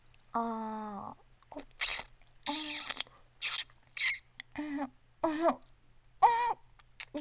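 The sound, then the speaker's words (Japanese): Crunchy bites and chewing of food: a few short, crackling bursts mixed with high, squeaky voiced sounds, moderately loud and uneven in rhythm. “はーい、お待ちかね。久々の一口いただきまーす。”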